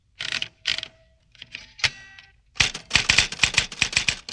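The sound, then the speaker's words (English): Typing in an office: a few sparse, sharp mechanical clacks at first, then a rapid, dense run of loud keystrokes, with no voices. “It's 10 o'clock now. Janet's at the office. Answer. Is Janet typing now? Yes, she is.”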